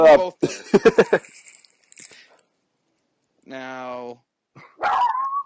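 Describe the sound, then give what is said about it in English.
A dog barks at someone urinating, giving a few sharp, loud barks near the start, followed by quieter, scattered sounds and a later stretch of softer whining. “No, that's my dog. He started barking at someone pissing.”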